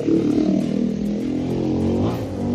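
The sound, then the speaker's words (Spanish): A motorcycle with a modified exhaust rumbles on a congested street: a steady, low, gritty engine drone holds for about two and a half seconds with no clear rise in pitch, heard alone. “como que cada vez hay más motos que les ponen modificación a los escapes, y pues esto es contaminación auditiva”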